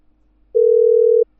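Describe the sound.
A telephone tone while a number is dialed: silence, then one steady mid-pitched beep lasting under a second, followed by the start of another.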